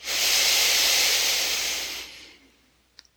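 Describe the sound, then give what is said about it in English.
A deep breath during a guided breathing meditation: a long, airy rush of breath holds steady for about two seconds, then tapers off into quiet, followed by a soft click. “So we're going to take 6 breaths down into the ground to connect the inside of us to the space outside of us.”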